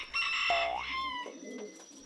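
Pigeons kept by a breeder coo softly, with a rising, whistle-like sweep followed by a low, continuing murmur. The sound is quiet throughout.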